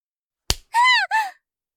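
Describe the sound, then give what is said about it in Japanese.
A spanking slap on the buttocks: one sharp, loud smack, quickly followed by two short, tonal high-pitched cries. “何？あなた、お尻を叩いたの？”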